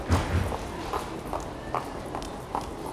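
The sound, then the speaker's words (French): Footsteps of a group of people walking, a steady run of soft thuds at an even walking pace, moderately loud, with a faint hint of voices underneath. “Un groupe en constante interaction. Les gens parlent et surtout marchent.”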